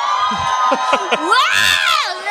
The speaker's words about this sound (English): Make some noise if you relate to feeling out of a league.